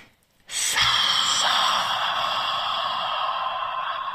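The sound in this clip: Deep breath drawn in during a guided meditation: one long, loud, airy inhale that starts abruptly and holds steady for about four seconds, with no other sound.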